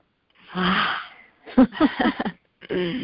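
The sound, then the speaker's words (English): A deep breath drawn in as a long, breathy rush, followed by a voice speaking briefly. “So, deep breath.”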